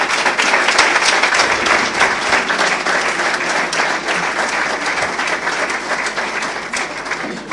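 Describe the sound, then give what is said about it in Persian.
Sustained applause from a crowd clapping for a tour crew, a dense, steady roar of many hands that carries on evenly for the whole stretch with no voices over it. “بفرما دست بیان روشون.”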